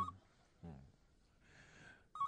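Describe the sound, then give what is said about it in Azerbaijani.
A telephone rings in short electronic tone bursts, one at the start and another near the end, with faint breathy sounds and quiet noises between them. “Telefona hə. Cavab verin.”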